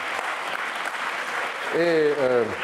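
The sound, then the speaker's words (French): An audience applauds a correct answer with a steady wash of clapping throughout. A person starts talking over it near the end. “Bravo. On vous l'applaudit, c'est là aussi, s'il vous plaît.”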